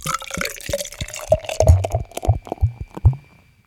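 Malty beer being poured into a glass, a run of gurgling glugs and splashes of uneven rhythm that grow louder before trailing off at the end.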